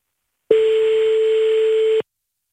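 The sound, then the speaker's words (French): A telephone dial tone before a number is dialed: one steady, loud, mid-pitched continuous tone that holds for about a second and a half and then cuts off abruptly. “On compose son numéro de téléphone.”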